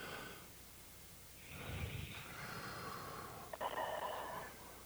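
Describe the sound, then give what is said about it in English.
A slow, deep breath is drawn in and released as a long, faint, airy rush, with no talking. “right now I would ask the listeners to just experiment by taking three very deep breaths. All right, let's do that.”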